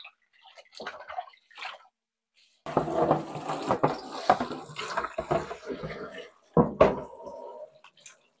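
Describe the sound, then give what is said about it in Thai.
Cloth is rinsed in water for its first wash, with a few brief splashes, a short pause, then sustained sloshing and splashing, and a louder splash burst near the end. “อันนี้เราล้างน้ำแรกอยู่นะคะท่านผู้ชมเราจะล้างเขาจนกว่าเขาจะใสเลยนะคะ”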